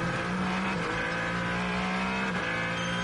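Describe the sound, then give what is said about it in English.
Ferrari racing car engine at full race pace, a loud, continuous high-revving drone with strong harmonics and slight shifts in pitch, heard alone without talk. “The Ferrari of Alessandro Perguidi. Perguidi pushing along.”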